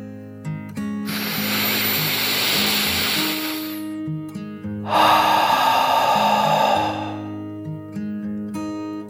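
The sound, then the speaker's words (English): A dragon's deep breath in and out: a long breathy inhale of about three seconds, then a slightly louder, rushing exhale of similar length, over steady low background tones. “yawned and then took another deep dragon breath in and out.”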